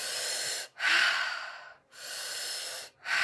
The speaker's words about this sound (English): In through your mouth, out through your mouth. Okay, breathing in.